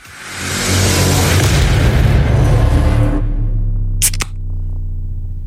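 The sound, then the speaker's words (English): A beer can cracks open with a single sharp pop. Before it comes a loud rushing noise that stops abruptly, then a quieter low hum continues afterward. “I want to crack some cans for you. So, beer or soft drink? Let's do it. Is can one?”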